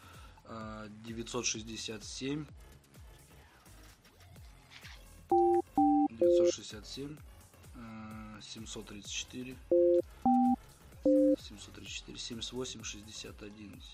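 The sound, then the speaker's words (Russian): Telephone keypad tones sound while a number is dialed: six short beeps in two groups of three, heard amid ongoing conversation. “Так, набираю Яна по твоему номеру.”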